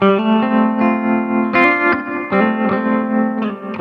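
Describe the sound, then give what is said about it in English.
Electric guitar plays through amp tremolo with the reverb sent through the tremolo, so even the reverb tail throbs. Sustained notes and chords pulse rhythmically in volume, loud and clear, with several note changes and no talking. “I kind of learned this from Leslie Players, you get a different thing when you send the reverb through the tremolo”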